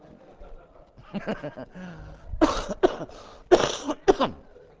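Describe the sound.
Coughing and choking: low, rough throat sounds give way to several harsh, sharp coughs that grow louder, with no clear speech.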